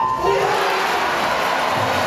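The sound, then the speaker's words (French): Crowd cheering at the Olympic aquatic centre during a 4x200 m swimming relay, a continuous roar of many voices shouting and screaming, loud and sustained, with a short raised voice near the start. “Le public hurle le prénom de Léon Marchand et quand il conclut en tête le premier relais, c'est l'hystérie.”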